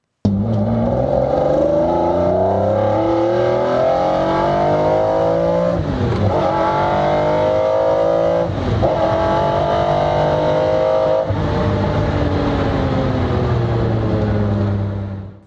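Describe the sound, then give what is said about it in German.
An F1 sports car engine roars loudly and steadily on a test drive, its pitch climbing under acceleration. Three sharp drops mark gear shifts, and each is followed by another rise. No voices are heard. “Jetzt habe ich so viel über den F1 geredet. Allerhöchste Zeit, dass wir ihn kurz Probe fahren.”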